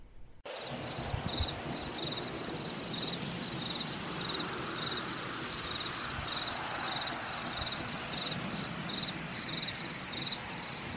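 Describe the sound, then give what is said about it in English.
Nighttime forest ambience with a constant, dense wash of crickets and other insects and a regular, high-pitched chirping pulse throughout, after a brief quiet start. “Ah, the sounds of the forest at night. Such beautiful sounds for those of us who have lived in the country.”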